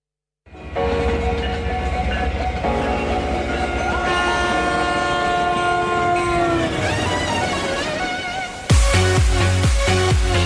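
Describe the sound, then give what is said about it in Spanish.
A train sounds its horn in long, loud, sustained tones that sink in pitch toward the end, then it starts off with a sudden burst of loud, rhythmic clatter. “Tren de las comunicaciones que se pone en marcha”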